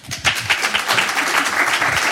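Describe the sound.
A television studio audience applauds two puppeteers as they come on. A few sharp separate claps open it, then quickly build into loud, dense applause that holds to the end.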